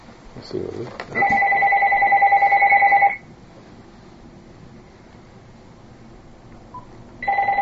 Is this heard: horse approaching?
no